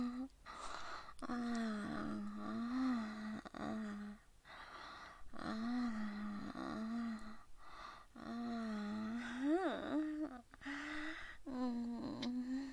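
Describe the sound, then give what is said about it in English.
A man groans repeatedly in low, drawn-out moans, each rising and falling in pitch, separated by short pauses and breaths. “Daddy's fucking handsome groan. It turns me fucking on.”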